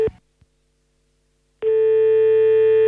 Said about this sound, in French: on va rappeler.